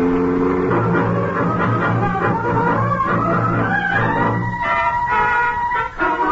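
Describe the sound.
A taxi cab's engine revs hard as the car drives off fast, a radio drama effect: a loud, continuous motor tone that climbs steadily in pitch as it accelerates, then levels off.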